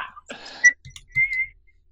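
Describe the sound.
A person whistles a brief snatch of a rock song melody: a few thin, high notes after a breathy start, faint and alone.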